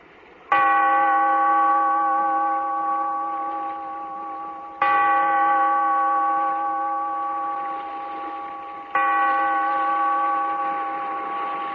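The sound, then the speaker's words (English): A bell tolls three times. Each loud strike rings out with a rich, sustained hum of overtones that fades slowly before the next strike, about four seconds later. “Bellkeeper, toll the bell so that all may know we are gathered again in the Weird Circle.”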